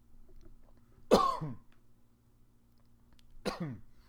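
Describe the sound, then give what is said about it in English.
Two harsh coughs from a person, well apart, each a short raspy burst that fades quickly against a quiet background. “oh, just coughed. Probably need some water.”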